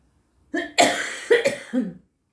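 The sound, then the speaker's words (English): A person gives a short fit of several harsh, chesty coughs in quick succession, loud against otherwise quiet surroundings. “I'm sorry about the coughing.”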